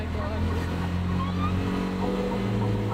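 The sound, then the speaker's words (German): A tuk-tuk engine running again after a breakdown, with faulty gears so only first gear engages, gives a steady low droning hum and a constant loud rumble throughout. “Endlich! Der Motor läuft wieder.”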